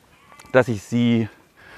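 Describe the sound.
Lambs bleating on a farm where sheep and goats are kept: a short, broken bleat followed by a longer, steady quavering one, loud and clear.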